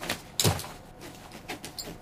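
Bags mounted left and right on a bicycle's front wheel are opened, giving a few soft, short rustling and scraping bursts, the strongest near the start, all fairly faint.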